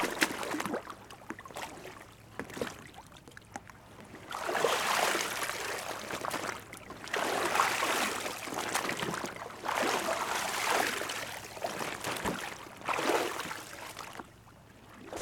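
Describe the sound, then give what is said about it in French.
Water sloshes and splashes as a kayak is handled at the water's edge, coming in several broad surges of noisy churning separated by quieter gaps, with no voices. “son kayak au bord de l'eau”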